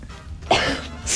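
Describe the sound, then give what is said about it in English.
A person coughs, a brief, sharp burst of harsh throaty coughing heard alone with no talking. “I say yuck and you start coughing.”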